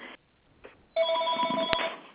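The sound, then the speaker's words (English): Telephones ringing in a room where people are gathering to record: an electronic ring holds a steady, layered tone for more than a second after a few brief, fainter earlier chimes, with a sharp click near the end. “We got phones ringing everywhere.”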